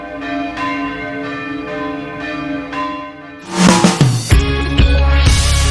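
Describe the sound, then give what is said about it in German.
Church bells peal in a ringing of the bells as worshippers process into the church, starting with sparse, clear bell strikes, then swelling into a loud, dense, overlapping clangour of several bells. “wenn der Einzug der Gläubigen in die Kirche von Glockengeläut begleitet wird. Das ist einfach schöner, wenn gescheit geläutet wird.”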